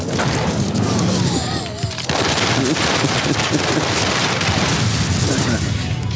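Loud machine-gun fire at a police car in a ruined 1985 Miami scene, a dense unbroken roar of rapid shots mixed with heavy booms and whooshing noise.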